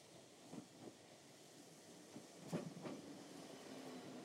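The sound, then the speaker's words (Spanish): A train pulling in to stop at a station gives a steady low rumble and hiss, with a few faint knocks and clanks over the continuous rolling noise. “Y sientes como el tren hace otra parada.”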